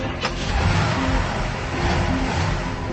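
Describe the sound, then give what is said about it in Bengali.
A police officer's car drives off at speed, its engine roaring and revving loudly in a steady, continuous rush of noise throughout, with no talk. “OC সাহেব গাড়ি নিয়ে ছুটে চললেন ঘটনাস্থলে।”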